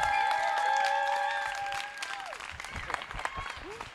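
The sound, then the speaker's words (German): Poetry slam audience applauding the winner: dense clapping that thins out after a couple of seconds, with voices heard through it. “Wir bitten auf, auf die Bühne mit großem Applaus, Applaus für Mario Tomic, den Sieger des vierten Olivi Poetry Slams.”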